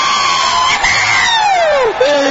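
Studio audience cheering and whooping for a guest who played the composer Johann Sebastian Bach, with high yells rising and falling over a steady crowd roar.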